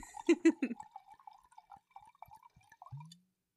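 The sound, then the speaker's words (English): A drink poured into a glass: a few quick liquid splashes at the start, then fainter drips and trickles that fade away. “You gave me a much bigger pour than you gave yourself.”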